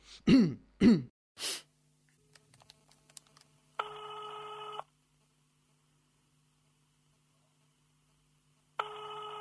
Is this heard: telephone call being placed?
yes